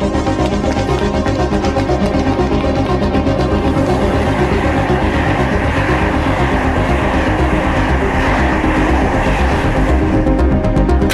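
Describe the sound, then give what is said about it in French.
Loud, steady train rumble fills a French railway station as a train departs from platform 14 during a strike, a dense continuous roar that holds level from start to end with no clear breaks. “Il y a un train qui va partir là.”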